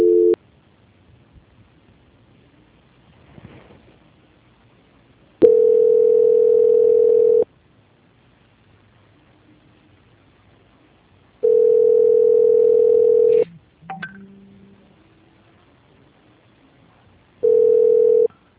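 Telephone line tone during a call transfer: steady mid-pitched beeps about two seconds long repeat after gaps of roughly four seconds, with faint brief clicks between them.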